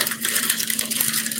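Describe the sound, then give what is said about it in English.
A plastic wrapper is peeled off a yogurt bottle, giving a steady, fairly quiet crinkling rustle with small crackles throughout. “Sorry, I'm peeling off the wrapper on this yogurt bottle.”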